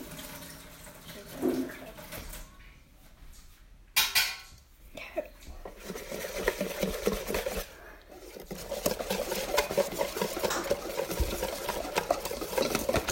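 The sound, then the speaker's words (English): Whisking a lumpy mixture with a whisk makes busy, continuous scraping and light clinking that grows denser over time, broken by two short pauses. “Let me try with my whisk to see if that works.”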